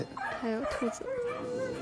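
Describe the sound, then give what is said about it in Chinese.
Dogs bark, yip and whimper in a few short, high-pitched, wavering bursts, mixed with talking. “各种各样的狗叫啊”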